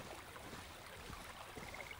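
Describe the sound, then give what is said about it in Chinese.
A gentle stream flows steadily with a soft, continuous wash of water, faint and even throughout, with no voices. “一起听会儿溪流声吧。”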